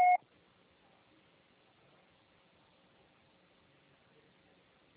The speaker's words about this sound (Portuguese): o pessoal será tarifado após o sinal. Grave seu recado.